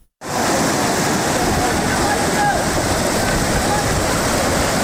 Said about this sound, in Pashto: دا د نړۍ ولسوالۍ او اسدآباد ترمنځ د سونک خوړ دی چې په کې تیر شوی سړک اوبو وړې دی.